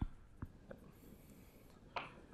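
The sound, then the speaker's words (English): Writing on a board comes through as faint, scratchy strokes, a few short marks spaced apart, with one louder stroke near the end. “I write it twice.”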